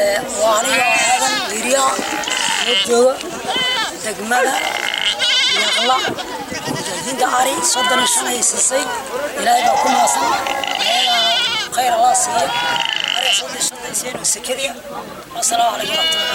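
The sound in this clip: Goats and sheep bleat nonstop among livestock being handed out to poor families. Many overlapping cries of shifting pitch stay loud and dense throughout.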